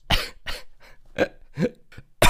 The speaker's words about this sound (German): Oh, jetzt kommt wieder der Husten hier.